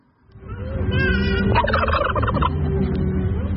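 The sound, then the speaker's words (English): Turkeys gobbling during the White House turkey pardon, a loud, continuous stream of rapid, rattling gobbles with no talk. “That is the sound of actual turkeys, which President Trump pardoned in the time-honored White House tradition.”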